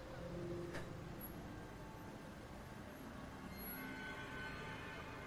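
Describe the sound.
Traffic heard while walking down into a subway: a faint, continuous low rumble of vehicles with a steady hiss and no distinct separate events.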